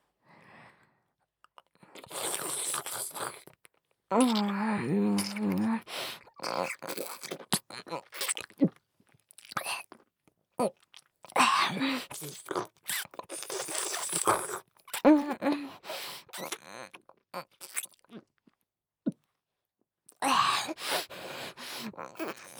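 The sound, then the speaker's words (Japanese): Swallowing and gulping close to the ear: wet throat and mouth sounds come in irregular bursts separated by silent pauses, with soft breaths and small crunchy, sticky noises between them. “ちょうど耳元ですし、私のごっくんの音存分に楽しんでくださいね。”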